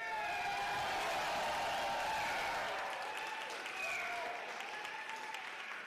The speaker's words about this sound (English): We have 10,000 people here. You can hear them right now.